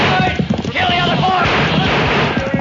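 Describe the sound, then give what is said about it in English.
Rapid volley of rifle gunfire in a radio drama ambush on a wagon guarded by troopers, dense sharp cracks fired in quick succession beneath loud shouting voices. “Use your gun! We got four of them with the first volley.”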